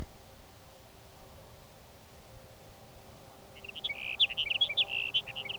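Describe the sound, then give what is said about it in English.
A sage sparrow sings: after a few seconds of quiet background hiss, a short burst of rapid, high, twittering notes comes at the end. “Your sage sparrow number three for the morning.”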